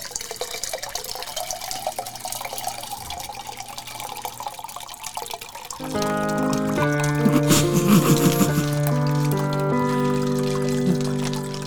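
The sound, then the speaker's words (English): Canned Liquid Death water being poured into a glass: a steady splashing pour that gives way to a fuller, ringing gurgle as the glass fills through the second half. “I didn't even have enough space to pour this Liquid Death. I just really wanted one. Pour it in, I'll drink the rest.”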